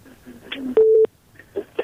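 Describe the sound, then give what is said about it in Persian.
A single short telephone tone sounds as a radio call-in host moves on to take another caller, a steady mid-pitched beep of about a third of a second with sharp edges, set between faint murmuring. “همکار عزیز یک تماس دیگه میگیریم.”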